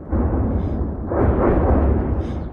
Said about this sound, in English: We are lying in Shebekino on the ground under Ukrainian Grad missiles, he says. Strikes are coming one after another.